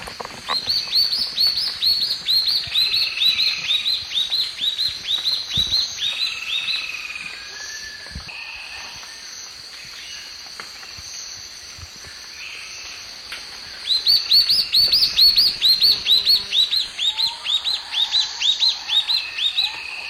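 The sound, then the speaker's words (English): A spot-backed antbird sings in terra firme forest, repeating rapid series of high, clear whistled notes in steady bursts over a constant buzz of insects. The song fades in the middle and returns loudly near the end. “spot-backed ant bird, Terra firma, 1.”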